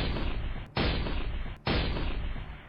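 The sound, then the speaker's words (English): Heavy naval gunfire from four German ships firing on the British cruiser HMS Chester: a loud, continuous roar broken by two fresh, sharp blasts, each decaying into rumble. “Then, the guns from 4 German ships started to fire on HMS Chester.”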